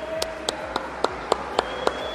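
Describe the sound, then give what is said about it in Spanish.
Claps from an audience at an event in a shopping centre. Eight sharp claps fall at a steady, even tempo over a constant background hum. “Un aplauso para el público.”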